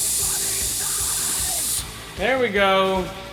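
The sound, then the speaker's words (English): A steady hiss runs for nearly two seconds as a bowl of Humboldt Ice cannabis is smoked. It cuts off abruptly and a short spoken voice follows. “Let's smoke this bowl first, guys. That sounds good. We're smoking a bowl of... Humboldt Ice.”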